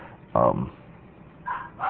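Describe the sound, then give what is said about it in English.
A dog barks three times: one louder, fuller bark, then two shorter, softer barks close together, muffled and with nothing else around them. “why does she have the dog barking? Is that just typical?”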